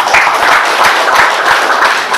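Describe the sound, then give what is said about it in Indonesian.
Members at a meeting give loud applause, continuous dense clapping with a few heavier claps standing out. “Tepuk tangan kalau sudah aktif semua.”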